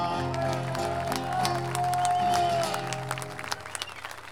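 Audience applause at a payador folk-verse gathering: a steady wash of clapping over sustained guitar-like chords, thinning into scattered separate claps near the end.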